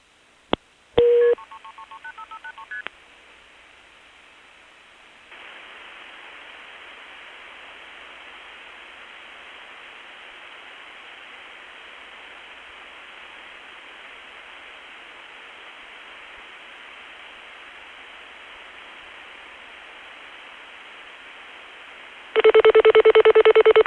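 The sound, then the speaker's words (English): Touch-tone dialing on a calling card: a quick run of several DTMF beeps, then a long steady hiss of line static, and a loud steady tone returning at the end. “and then I get to dial another call on the same calling card. You may dial another number now.”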